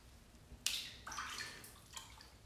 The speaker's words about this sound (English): I'm sorry, I'm rinsing my face mask.